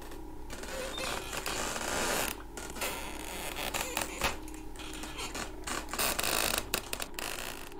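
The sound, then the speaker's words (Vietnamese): Creaking of a rocking chair swaying back and forth on an earthen floor: quiet, continuous grinding and creaking with a few short breaks, and no voices. “Nó bắt đầu đưa qua đưa lại, nghiến xuống nền đất, vặn vẹo phát ra những âm thanh cọt cả cọt kẹt.”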